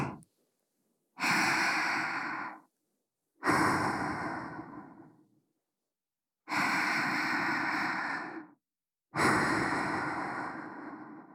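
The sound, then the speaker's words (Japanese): Slow, deep breathing during a guided breathing exercise: four long, airy breaths, each lasting over a second, separated by short silences, after a brief tail of one breath at the start. “私と一緒にゆっくり深呼吸してくださいね。”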